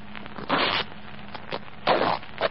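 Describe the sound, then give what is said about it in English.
Fabric being cut open at the lining of a jacket breast pocket: two longer rasping tears, a few faint scratches between them, and a short final snip. “I sewed inside the lining of this breast pocket a photograph and 250 mark notes. If this is my jacket, they should be here now. Well, cut it. Cut the lining.”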